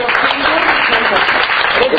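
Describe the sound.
Audience applause at a talk about a book drawn from a thesis: a dense, steady wash of clapping that runs through the whole moment, with voices mixed in.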